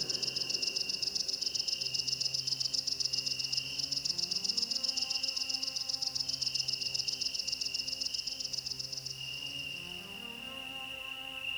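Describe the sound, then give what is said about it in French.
Oecanthus tree crickets chirp in a steady, high-pitched, continuous trill that holds unbroken and evenly loud from start to end, fairly faint overall. “Des grillons Eucanthus.”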